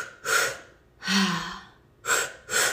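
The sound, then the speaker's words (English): Loud, sharp breaths from a person demonstrating activated double inhale-exhale breathing: a few quick forceful breaths and one longer drawn-out breath, with no talking. “So that could look like a double inhale, exhale.”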